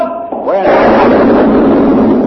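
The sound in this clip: An ironclad warship's turret cannon fires in battle, one heavy, sudden boom that breaks into a long, loud, sustained roaring rumble.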